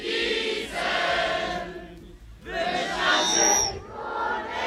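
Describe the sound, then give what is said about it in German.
A mass choir of 739 singers in Obersontheim sings a refrain together. Loud, full-voiced sustained phrases come in two swells, separated by a brief dip in the middle. “Ja, so klingt das jetzt in Obersontheim. Und das ist die Musik aus der Kehle von 739 Sängerinnen und Sängern.”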